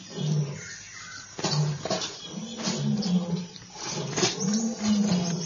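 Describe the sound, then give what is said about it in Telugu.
A lion roaring in pain: several low, drawn-out growling cries rise and fade over a rough, noisy background. “Androcles ని చూసిన సింహం నొప్పితో అరవసాగింది”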